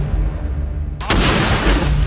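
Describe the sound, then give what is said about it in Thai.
Gunfire and grenade explosions erupt as one sharp, loud blast over a deep rumbling background, followed by dense, noisy crackling. “มีทั้งยิงทั้งปาระเบิดครับกับคลิปที่ชวนเข้าใจผิดว่าเป็นเหตุการณ์ระหว่างไทยกัมพูชาที่เกิดขึ้นจริง”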